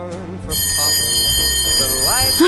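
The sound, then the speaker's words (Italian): An electric school bell rings with a steady, bright, continuous tone that starts abruptly and holds to the end, layered over music and a voice. “E tra poco, cari ascoltatori, vi dovremo lasciare perché suonerà la campanella e il ritmo scolastico riprenderà regolarmente.”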